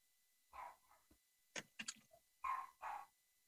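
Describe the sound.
Faint barking from a Shorkie, a Shih Tzu and Yorkie cross, comes as a few short, sharp yaps and barks spread unevenly over a few seconds. The barks are quiet and there is no talk.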